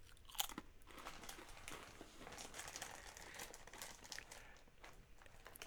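Crunching of fried green tomato flavoured wavy Lay's potato chips, with many crisp, crackly crunches blending into steady chewing that carries on throughout.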